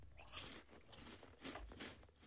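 Someone chewing a dry, crunchy mouthful of food, with a few soft crunches and bites in uneven rhythm, fairly faint and without talk.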